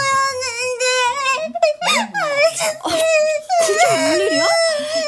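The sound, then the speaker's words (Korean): A person crying in high, wavering wails and sobs, the voice sliding up and down in pitch with breathy catches and short breaks, loud and continuous throughout. “뭐야? 울어? 왜?”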